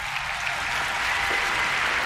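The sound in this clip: An audience applauds at a technology keynote during a GPU product launch: dense, steady clapping that fills the whole clip at an even level.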